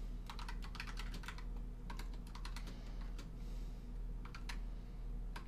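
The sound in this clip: Typing on a computer keyboard: many quick, light keystroke clicks in uneven bursts with short pauses, faint over a steady low hum.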